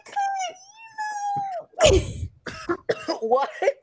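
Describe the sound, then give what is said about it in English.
A single harsh cough bursts out after a drawn-out, wavering vocal moan and is followed by choppy, broken voiced sounds. All of it is fairly loud and close. “Why you coughing?”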